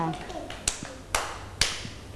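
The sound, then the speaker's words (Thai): Schoolchildren in a classroom clap for a classmate: three sharp, evenly spaced claps ring out, with a faint voice at the start and a low background murmur throughout. “เด็กๆปรบมือให้น้องออโต้ด้วยค่ะ”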